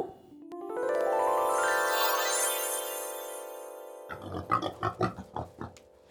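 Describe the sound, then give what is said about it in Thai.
A plump, well-fed pig grunts in a rapid run of short snorts after a long, shimmering, chime-like tone that swells and then stops. “ต้นไม้วิเศษก็เสกเจ้าหมูตัวอวบอ้วนของชายเลี้ยงหมูให้มายืนอยู่ตรงหน้าเขา”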